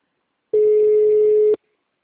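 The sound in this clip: Telephone ringback tone while waiting for someone to answer: a single steady, mid-pitched beep lasting about one second, heard alone between stretches of silence.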